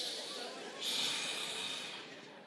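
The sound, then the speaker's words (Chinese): An audience of people takes deep breaths together, making a steady airy hiss of collective breathing that swells briefly near the middle and eases off toward the end. “所以有什么东西呢？学深呼吸。来，跟你隔壁的深呼吸。”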